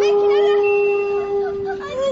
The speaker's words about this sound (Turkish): Defol, defol pis hayvan. Defol diyorum sana. Git buradan hadi. Dikkat et baba. Kurt üstüne doğru geliyor.